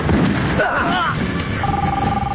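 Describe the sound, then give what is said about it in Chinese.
A mobile phone rings on the body of a shot gunman: a loud, warbling electronic ringtone, then a steady, held tone over a constant noisy background. “包勃从一个被打死的匪徒身上找到了一个正在响着的手机”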